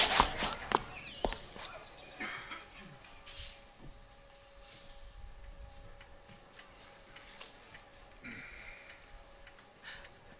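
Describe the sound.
Quick footsteps of people hurrying along: faint, light, irregular ticking steps that patter steadily throughout, soft and close to the background hiss.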